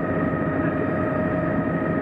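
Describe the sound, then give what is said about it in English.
A helicopter flying low over a lake, herding swimming brent geese toward a net, gives a steady, loud engine drone with a constant hum and broad noisy rush throughout, no talking. “the helicopter is doing a fine job of moving them down along the lake in the direction of the net”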